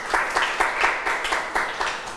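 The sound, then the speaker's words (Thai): Students in a class clap for themselves, a brisk round of applause that comes in steady rhythmic bursts of clapping throughout, moderately loud and without voices. “เก่งมากๆปรบมือให้ตัวเองอีกหนึ่งครั้งค่ะ”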